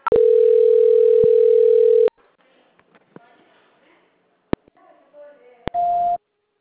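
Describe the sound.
Telephone tones mark a call transfer on a customer service line. A long steady tone of about two seconds gives way to faint clicks and quiet line noise, and a short tone burst follows near the end.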